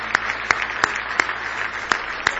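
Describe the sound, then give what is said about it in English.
Congregation clapping hands in praise at a church service, a steady rhythmic clap roughly every third of a second over a low background murmur, moderately loud. “Why don't you give the Lord a big hand clap of praise?”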